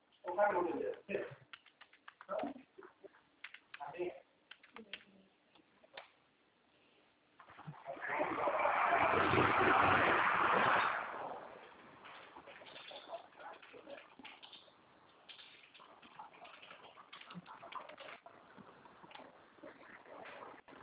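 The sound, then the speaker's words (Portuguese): Someone types on a computer keyboard: scattered bursts of clicking keys throughout, with a longer, denser stretch of noise in the middle. “Deixa eu terminar de digitar aqui.”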